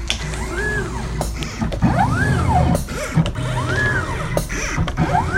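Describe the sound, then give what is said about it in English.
A mat cutter runs in a picture framing shop, its motor whine sweeping up and then down in pitch in a few repeated arcs. Sharp clicks and mechanical clatter fall between the sweeps over a constant low hum. “A listener in Armonk, New York, sent us this sound of their mat cutter from their framing shop”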